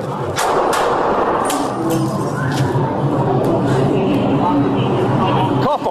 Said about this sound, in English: The NYPD fired at the man.